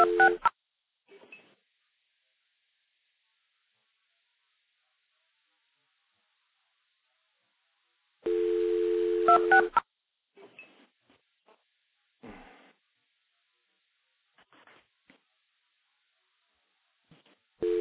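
Multi-frequency signaling tones are pulsed into a stack of linked telephone trunks: a short tone burst at the start, a longer block of steady tones midway and another at the end, with faint clicks and crackles between stretches of silence.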